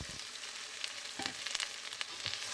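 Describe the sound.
Sugar snap peas fry in a pan with glassy onions, giving a faint, steady sizzle with scattered crackles and pops throughout.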